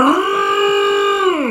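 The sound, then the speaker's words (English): Spoiler-warning horn sound effect: one loud, sustained brassy blast about a second and a half long, holding a steady pitch before dipping at the end, heard alone. “It is going to be really spoilery, though, so pause for the spoiler horn.”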